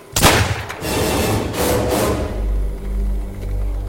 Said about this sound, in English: She shot herself.